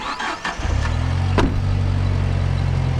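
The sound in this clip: A car engine starting up and settling into a steady low, humming drone, with one sharp click partway through; no voices.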